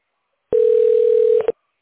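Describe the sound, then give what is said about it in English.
A telephone tone sounds while a call is being dialed: one steady, even tone lasting about a second, then two short blips as it cuts off. No voices are heard. “Okay, now we're dialing the tax specialist.”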